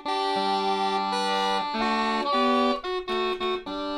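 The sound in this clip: Uilleann pipes regulators sound chords to accompany the chanter: sustained harmonic chords that shift pitch, then a few short chords struck in a quick rhythm near the end.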